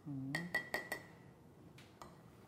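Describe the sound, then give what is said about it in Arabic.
A spoon clinks against a cup while stirring instant Nescafe coffee: four quick, bright ringing taps come in a row, followed after a pause by two fainter ones. “ما هي ما فيها سكر ليش عم تحركها؟ ايه حرك لك النسكافيه”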